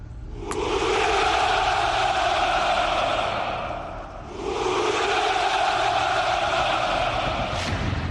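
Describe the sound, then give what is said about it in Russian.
A crowd shouting hurrah at a Russian military commemoration: two long, loud, sustained massed roars with a short dip between them. “Президент Путин всегда любил это самое священное «Ура» в российском календаре памяти.”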